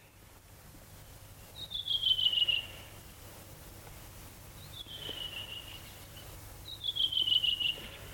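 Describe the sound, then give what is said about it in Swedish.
Redwing thrush singing energetically, three short, high, slightly falling whistled phrases spaced a few seconds apart, faint against a steady background hiss. “så sitter den där en rödvingetrast och sjunger energiskt, frenetiskt. Sjunger och sjunger och sjunger.”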